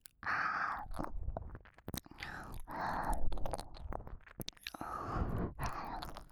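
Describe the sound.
Chewing food with crunchy bites, steady bursts of mouth noise and mastication repeating through the stretch at a close, soft level.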